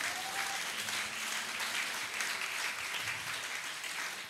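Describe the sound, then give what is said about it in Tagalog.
Congregation applauding during a church prayer meeting, a dense, even wash of many hands clapping that holds steady throughout without pause. “palakpakan nga natin si Lord.”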